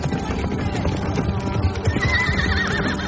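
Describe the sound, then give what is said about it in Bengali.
Horses whinnying among the pounding of hooves as large police mounts advance at speed, one loud wavering high neigh standing out above a dense, continuous rumble of galloping. “প্রকাণ্ড বড় বড় ঘোড়ায় চড়ে 20-25 জন গোড়া police কর্মচারী দ্রুত বেগে এগিয়ে আসছে।”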